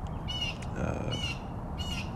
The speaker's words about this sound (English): Can hear the birds in the background, so clearly I'm outside.